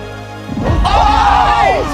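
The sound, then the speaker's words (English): A basketball trick shot strikes the front of the rim during an elimination competition: one loud, sharp impact, with voices rising right after. “Rim against all odds. She was a millimeter away. Oh, we had a front rim hit.”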